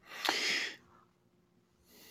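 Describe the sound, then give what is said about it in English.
A single deep breath in: a loud, breathy rush of air lasting about half a second, then near silence. “I just took a deep breath in and looked out the window to contemplate that question.”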